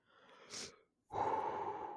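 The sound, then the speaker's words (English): A person exhales deeply: a short breath, a brief pause, then a longer, louder, breathy outflow of air lasting about a second, heard alone and fairly quietly. “Take that deep breath. Well, I was actually exhaling.”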